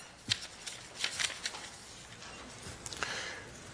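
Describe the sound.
A lecturer drawing a quick protein diagram on the board, producing faint, irregular scratchy strokes and taps in short bursts with brief pauses between them.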